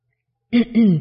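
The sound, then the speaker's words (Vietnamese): A person clears their throat in two dry bursts: a short rasp, then a longer voiced clearing whose tone sinks toward the end. The bursts are close together and fairly loud against silence. “Nhan Tra Tán và Tưởng Bình ho khan mấy tiếng”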